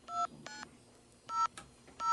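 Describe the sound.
Telephone keypad DTMF tones sound as a number is dialed. Four short, clear beeps come in an uneven rhythm with quiet gaps between them, and the last one is cut off.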